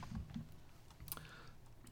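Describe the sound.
Typing on a computer keyboard: faint, scattered key clicks in an irregular patter throughout, quiet and with no talking.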